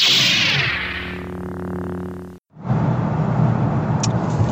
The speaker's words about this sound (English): But we're moving now, aren't we? We're in at least third gear now.